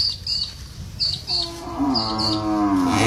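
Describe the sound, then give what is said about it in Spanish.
A cow moos once, a long, low, harmonic-rich call that begins partway through and holds steadily to the end, rising out of quiet background noise. “ahora cuál es la vaca”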